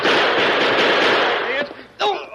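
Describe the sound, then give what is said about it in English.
Gunfire erupts in a staged western showdown as a dense, rapid volley of loud cracks. After a brief lull, one more sharp shot rings out, and a voice is faintly heard near the end. “Never saw such shooting in all my life.”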